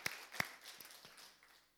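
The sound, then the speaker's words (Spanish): A church audience applauding, heard faintly as a few sharp, scattered handclaps near the start, trailing off into softer patters and quiet. “Dale un aplauso al Señor, si es que lo crees.”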